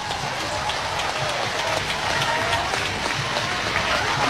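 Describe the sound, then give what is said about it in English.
Baseball fans in uproar at a Sooners game make a dense, steady roar of crowd noise that holds at an even level throughout. “Two outs for the Sooners. And Bernardini will come back to the box. Fans are in uproar.”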